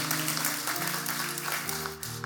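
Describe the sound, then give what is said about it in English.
A church audience clapping at a Resurrection Sunday service, a dense, steady wash of applause over sustained instrumental chords that shift a few times underneath. “Let's clap that the angels are rejoicing.”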